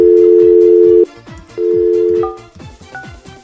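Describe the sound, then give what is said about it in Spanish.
Ringback tone of an outgoing telephone call placed to a caller: two loud, steady, low-pitched tone bursts separated by a short silence, the first about a second long and the second slightly shorter. “Vamos a ver. Vamos a llamar al señor Sirio Jansen.”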